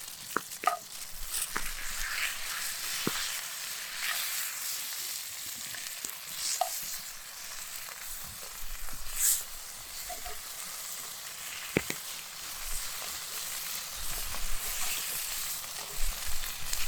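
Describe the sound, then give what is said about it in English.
Bacon sizzles in a pan with a continuous, fairly quiet crackling hiss, broken by scattered sharp pops and spits, and no talking. “Woo, look at all that bacon.”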